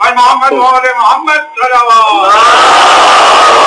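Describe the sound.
Crowd voices at a religious speaking gathering chant a slogan in a strong, tonal unison, then break into a loud, sustained roaring shout that holds steady to the end.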